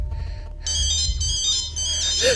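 An incoming call sets off a mobile phone ringtone in a coat pocket: steady layered electronic tones start after a low rumbling opening and keep sounding to the end.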